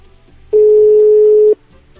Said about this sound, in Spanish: Vamos, ya se enlazó la llamada y la atendemos.